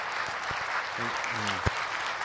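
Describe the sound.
Audience applause welcoming a speaker to the stage, a dense, steady patter of clapping throughout, with a man's voice briefly heard over it.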